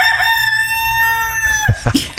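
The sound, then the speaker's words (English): A rooster crows right by a porch door: one long, loud, sustained crow with a strong harmonic ring, cut off by a few brief noisy bursts at the end. “That's a rooster. A rooster that comes up and mocks me on my porch, right by the porch.”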